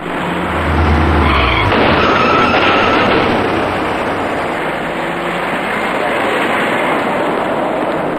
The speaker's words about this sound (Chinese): 这辆白色小客沿着由西向南右转弯车道行驶时，因为偏离了行驶方向，导致车头猛然撞上了摆放在路面上的隔离护栏。